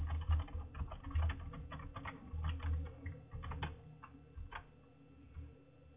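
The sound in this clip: Typing on a computer keyboard, heard as quick runs of light key clicks in irregular bursts that thin out toward the end, with a muffled, narrow-band tone.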